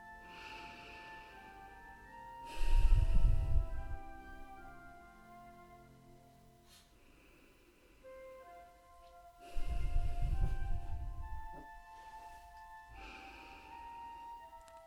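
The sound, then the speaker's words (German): Slow, deep breaths during a guided relaxation exercise, with two long, breathy swells several seconds apart over soft, sustained background music. “nimm hier noch einmal drei tiefe Atemzüge”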